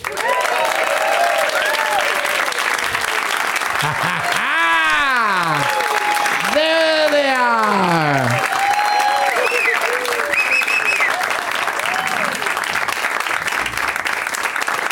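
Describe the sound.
A studio audience at a comedy show applauds loudly and steadily for comedians being introduced as guests, the dense clapping sustained throughout.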